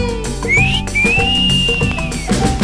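Whistling inside a Hindi song: a short rising whistled slide, then a long, steady high whistled note with a slight arch in pitch, and a brief final note, all over the song's musical backing.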